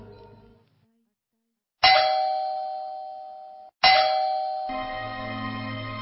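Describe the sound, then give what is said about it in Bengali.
A doorbell rings late at night. It gives two loud, bright chimes a couple of seconds apart, each tone ringing out and slowly fading before the next strike. “কি ব্যাপার, এত রাতে calling bell দিচ্ছে কে?”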